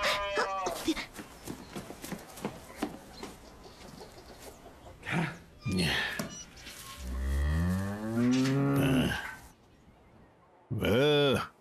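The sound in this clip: A newborn calf moos several times, a few short calls and then one long, drawn-out bellow with a wavering pitch. People talk softly in between the calls.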